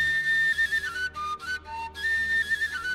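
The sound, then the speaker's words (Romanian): A small shepherd's flute is blown in a thin, high, sustained melody, its steady piping tone broken by a few brief pauses. “Suflă după aceea în fluieraș ca zâna zorilor să doarmă.”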